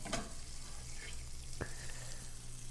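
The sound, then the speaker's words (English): Zucchini searing in a hot pan gives a steady, even sizzle and hiss throughout, with one brief tap partway through and no voices. “I'm going to sear them on this side for a few minutes.”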